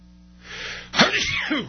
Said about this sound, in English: Pardon me while I sneeze.